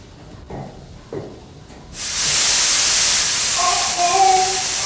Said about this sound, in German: Mein Gott, ein Dampfrohr ist geplatzt.